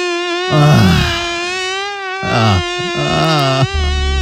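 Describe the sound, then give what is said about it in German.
A mosquito buzzes in a bedroom at night with a loud, thin, continuous whine. Its pitch stays mostly steady with slight wavers, and its loudness swells at moments. “Ein wahres Prachtexemplar da gestern Nacht bei uns im Schlafzimmer. Ich werde es mir heute mal nochmal angucken. Heute Nachmittag, ja, denn die Mücke hängt weiterhin bei uns an der Wand fest.”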